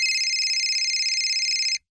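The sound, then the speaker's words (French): A mobile phone ringtone plays as a steady, high electronic tone with a slight warble, holding evenly for nearly two seconds before cutting off abruptly. “c'est ton portable.”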